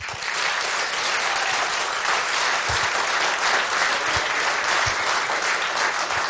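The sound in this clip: Audience applause greeting a band at a live radio event, dense and steady clapping that holds at an even level throughout, with no talking over it.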